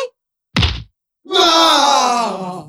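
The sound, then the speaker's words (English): A pillow thrown in a house hits its target with a single soft thump, followed after a short pause by a long, drawn-out groaning voice. “Quick! Throw the pillow! Take that!”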